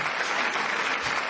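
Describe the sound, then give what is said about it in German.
Applause from an audience during a music quiz game: a dense, steady patter of clapping that fills the whole short moment at even loudness, with no voices standing out. “Dann einen Applaus für die elektronische Hilfe.”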